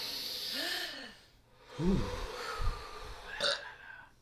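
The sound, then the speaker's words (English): A deep breath taken before a reading: a long, airy inhale and exhale with a few brief voiced, sighing tones mixed in. “As always, we're going to start with a deep breath.”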